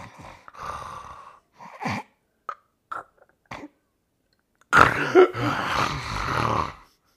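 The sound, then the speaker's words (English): A person imitates sleep apnea breathing: a series of short, snorting, rasping breaths, then a silent pause with no breathing, broken by a loud, long gasping snore. “I'm like, that was about 4 seconds he didn't breathe at all. Like I'm getting out of breath impersonating you sleeping.”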